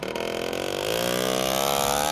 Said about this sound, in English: And outside is Rafael's motorbike.